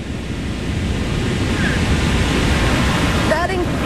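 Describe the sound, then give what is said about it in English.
Victoria Falls on the Zambia–Zimbabwe border gives off a thunderous roar: a dense, unbroken wash of deep, rushing water noise that holds steady and loud throughout. “Sound you can hear, that thunderous sound, is the sound of the Victoria Falls here on the border of Zambia and Zimbabwe in southern Africa.”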